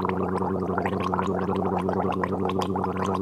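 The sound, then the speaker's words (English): Gargling sounds dubbed over a man talking in a video: a continuous wet, bubbling gurgle at steady loudness for the whole clip, with a voice-like drone beneath it. “they filled his mouth with gargling sounds”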